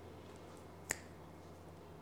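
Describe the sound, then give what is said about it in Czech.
A single crisp finger snap cracks out in the middle of an otherwise quiet, faintly humming stretch. “Já nevím, jestli jste viděli někdy reklamu, jak Bono z YouTube luská prstama. To je moje oblíbená reklama. Byl v televizi, to bylo, si pamatuju jako dítě, byl v televizi Bono a dělal takhle.”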